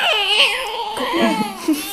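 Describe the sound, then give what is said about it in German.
A baby cries and fusses while searching for the breast, with loud, wavering wails and whimpers that rise and fall in pitch. “Ihr hört hier gerade nebenher noch ein Kind, das die Brust noch sucht.”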